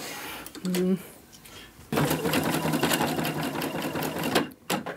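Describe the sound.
A sewing machine stitching plastic film while acting up: a few short mechanical bursts, then a fast, steady whirring rattle that runs for about three seconds before stopping.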